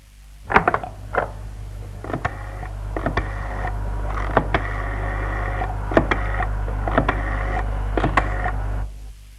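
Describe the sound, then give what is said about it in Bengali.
A telephone being dialled to call a police station gives many sharp, irregular clicks over a steady low hum. They come in small clusters across the whole clip, then the hum stops. “আগে এখানে থানায় একটা phone করো তো”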